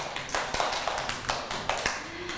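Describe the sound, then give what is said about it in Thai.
Children clap for a classmate on a kids' news show, many quick, faint claps in a fairly regular rhythm that runs through the whole moment. “ปรบมือให้มากี้หน่อยค่ะ”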